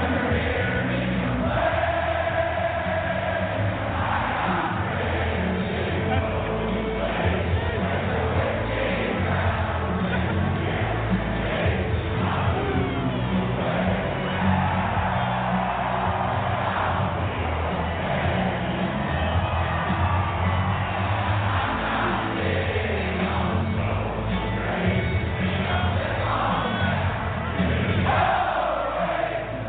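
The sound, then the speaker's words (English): Around 76,000 people at Arrowhead Stadium, home of the Chiefs, sing along at halftime. The wall of massed voices is loud and sustained, with shouts swelling through it from start to finish. “But yes, this was Arrowhead Stadium, the Chiefs Stadium, during halftime.”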